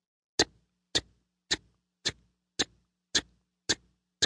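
A clock buried in the ground ticks eight times, sharp and faint, at an even pace of roughly two ticks per second, with nothing else heard.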